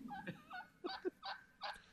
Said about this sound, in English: These damn turkeys ain't going to make it.